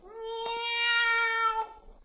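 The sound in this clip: A boy hiding behind a hedge imitates a cat's meow with one long, drawn-out, tonal cry held at a fairly steady pitch and fading at the end.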